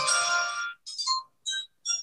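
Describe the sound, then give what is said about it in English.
NFL draft chimes play from a phone as bright, high electronic tones: one long sustained chord, then three short separated chimes, alone with no talk. “I have to apologize to Jeremy on that one because I was supposed to play the draft chimes a little bit earlier, but my phone froze up, so I couldn't send it.”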